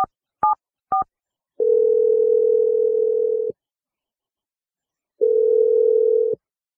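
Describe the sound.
Telephone keypad and line tones as a call is placed: three brief dialing beeps, then two long, steady tones separated by a pause.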